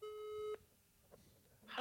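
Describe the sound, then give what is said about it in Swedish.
A phone rings over speakerphone while a call to a friend is placed: one steady, mid-pitched ring tone lasting about half a second, then near silence with faint clicks. “Jag väljer att ringa en vän. Mm. Sätt på högtalare.”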